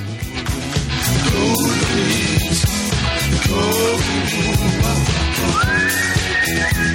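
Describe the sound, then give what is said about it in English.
Subtle whistling rides over a full-band rock song with drums, bass and guitars; toward the end a clear whistled note slides upward and then holds, sitting lightly within the dense music. “It's very subtle whistling. Mm. It's almost like he's walking out of the studio.”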